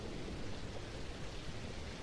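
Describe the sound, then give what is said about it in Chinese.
Rain falling, a steady, even hiss of drops with no voices and no change in level across the short stretch. “下雨了，雨滴打在身上”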